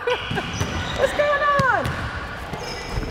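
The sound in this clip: A basketball bouncing during casual shooting practice at a hoop, with several sharp, hollow thuds spaced irregularly under people talking.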